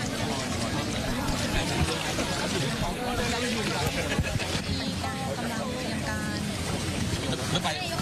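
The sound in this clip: A boat carrying a prime minister to visit people in hardship makes a continuous rough rumble on the water, with wind and splashing mixed in and voices talking throughout.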